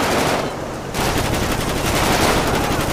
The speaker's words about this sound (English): Shot one. Suspect down, suspect down.